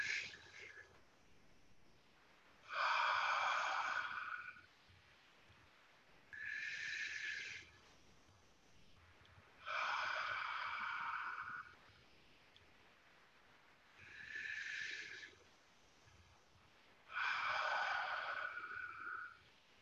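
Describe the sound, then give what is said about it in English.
A person breathes in and out deeply during a guided breathing exercise. Five long, airy breaths rise and fade at a slow, even pace, separated by quiet pauses, with no talking. “Breathe in, breathe out.”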